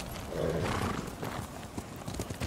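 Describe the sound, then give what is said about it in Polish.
A horse in a video game, with steady clip-clop hoofbeats under game ambience and a brief whinny early on. No one speaks over it. “Tam jest mój konik.”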